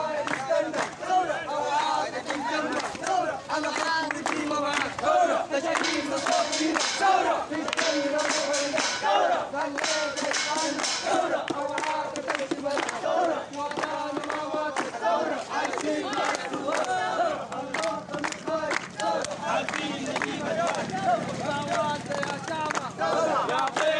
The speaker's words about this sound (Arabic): وردد المتظاهرون هتافات